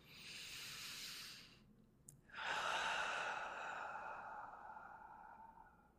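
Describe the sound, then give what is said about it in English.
Slow deep breathing during a guided relaxation exercise: a long airy exhale, a short pause, then a fuller inhale that flows into a gradually fading exhale. Soft and steady, with no talk. “And then take 2 more breaths.”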